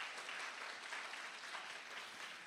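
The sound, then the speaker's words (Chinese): A church audience applauds during worship, a steady, even patter of clapping that stays faint throughout. “再俾个掌声我哋嘅神啦，哈利路亚！”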